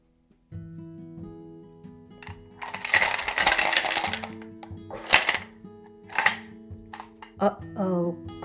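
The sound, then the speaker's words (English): A toy airplane crashes into dishes in an open cabinet: a loud burst of clinking clatter, then a few smaller rattles, with a voice rising at the end. “crash. His snow airplane crashed into the dishes that were left in the cabinet because the cabinet doors were still open. The sound was very loud.”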